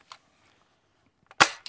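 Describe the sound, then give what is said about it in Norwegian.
A gunshot cracks out as one sharp, loud bang with a brief decaying tail. Faint clicks come just before it and a smaller crack just after. “Kom igjen, gullet mitt. Skyt I vei.”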